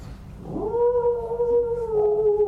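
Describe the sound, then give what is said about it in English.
Jackal howling in a forest at night: one drawn-out, wavering howl that rises in pitch at the onset, then holds a steady, fairly loud tone with clear overtones, heard alone. “Jackals. Jackals don't bite people.”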